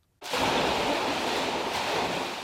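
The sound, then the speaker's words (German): Ten children splashing in a small hotel swimming pool at Hopfen am See: a dense, continuous wash of water noise starts abruptly and stays loud and even throughout, with no clear voices. “Hubert Kotte steht im Becken, zehn Kinder planschen um ihn herum”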